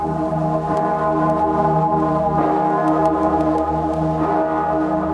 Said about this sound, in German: Im Dom zu Erfurt in Thüringen klingt hoch im Nordturm die Stimme einer altberühmten Glocke, gegossen im Jahre 1497.